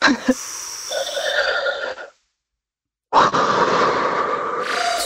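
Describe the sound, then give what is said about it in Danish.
People taking a deep breath together: a long, breathy airflow that cuts off into about a second of silence, followed by another sustained breathy rush. “Skal vi tage en dyb indånding sammen?”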